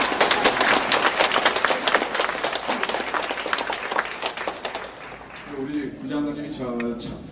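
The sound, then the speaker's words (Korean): Church audience applauding: dense, loud clapping that holds steady and then thins out, followed by a person speaking. “박수 한번 해주세요. 이렇게.”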